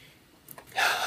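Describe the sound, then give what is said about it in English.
A deep belly breath drawn in during a relaxation exercise: a brief, soft, airy inhalation that swells quickly after a couple of faint clicks, quiet overall and without talk. “as you take a breath in, just see how far out, not pushing your belly out, but just let your belly go out as you breathe in”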